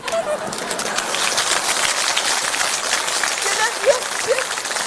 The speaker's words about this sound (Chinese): 别鼓掌了，我得问问他。